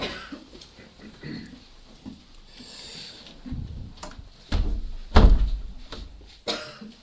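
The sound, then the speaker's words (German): Windows being shut produce a few dull thuds and clunks amid soft shuffling and rustling, with one louder knock standing out near the end. “Wir können die Fenster wieder schließen.”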